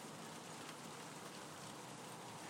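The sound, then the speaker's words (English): Soft, continuous hiss of rain falling during stormy weather, not very heavy. The faint, even patter stays steady throughout with no voices. “Actually, the rain isn't too bad.”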